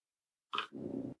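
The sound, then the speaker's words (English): A feisty female dog, called vicious, gives a short sharp bark followed at once by a lower, rougher sustained rumble lasting about half a second. “Oh, I got a spicy dog in here. That's a vicious animal. She is. Chased me off the porch.”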